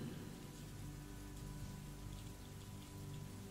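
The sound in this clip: Heavy rain falling in a steady, dense hiss with a soft low rumble beneath, continuous and fairly faint, with no voices.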